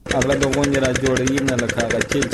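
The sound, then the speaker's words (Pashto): A diesel generator runs a water pump from deep wells to irrigate a four-jerib wheat field in Kandahar's Dand district. The engine drones loudly and steadily, with a rapid, regular chugging pulse throughout. “عزت الله د کندهار په ډن ولسوالۍ کې خپل څلور جریبه د غنمو کښت د جنراتور په وسیله اوبه کوي.”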